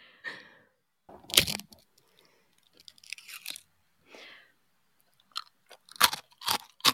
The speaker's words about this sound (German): Oh, hier gibt es noch gratis Essgeräusche dazu.